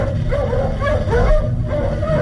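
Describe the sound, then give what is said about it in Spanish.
A nervous wolf gives agitated yips and whimpering barks, a continuous, fairly loud, restless stream of sound with no voices. “Uno de los lobos ladra nerviosamente.”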